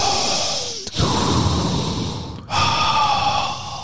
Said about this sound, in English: it's why you got to breathe into the mic. So they know that we're still here.